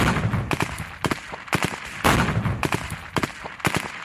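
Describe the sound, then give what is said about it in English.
Gunfire from militant training manoeuvres, with gunmen shooting room to room in mock villages set up with a fake tank: many sharp cracks in irregular bursts, some single and some in quick clusters. “This is the sound of the manoeuvres carried out at sites across Gaza, where mock villages had been set up, complete even with a fake tank. Gunmen practiced disabling tanks, taking hostages and shooting as they went room to room”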